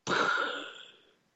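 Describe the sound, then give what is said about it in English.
A single breath drawn in, a soft airy whoosh that starts abruptly and fades over about a second, with no talking. “it's just like a breath in”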